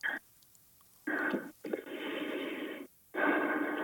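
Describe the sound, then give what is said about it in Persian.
Deep breaths from a nervous caller on a telephone line: several long, noisy, drawn-out breaths separated by short silent pauses. “یکم استرسم یه نفس درستم. عمیق بکشین، نفس عمیق.”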